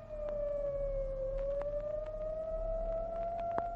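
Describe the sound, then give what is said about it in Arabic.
Fire engine siren on a Cairo street, a steady wailing tone that dips slightly in pitch and then slowly climbs again, sustained over a low background rumble with occasional faint clicks. “وتمر بنا الآن إحدى سيارات المطافي، ويبدو أنها في الطريق إلى مكان الحصار المضروب على الأسد الهارب في المنطقة الواقعة عبر الضفة الأخرى من النيل”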